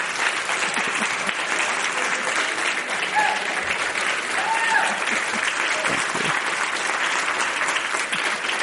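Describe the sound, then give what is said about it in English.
Standing ovation for a congresswoman at a Commonwealth Club Silicon Valley evening program in Palo Alto: loud, dense, sustained applause from a large audience that holds steady for over eight seconds. “For the, our radio audience, we have a standing ovation here.”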